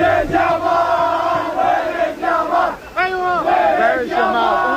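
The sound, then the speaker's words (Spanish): Saudi Arabia football fans sing a mocking chant about Lamine Yamal. A loud chorus of massed voices repeats a melodic, rhythmic phrase, dipping briefly between lines before surging again. “Es la afición de Arabia cantando Where is Yamal, ¿dónde está Lamine Yamal?”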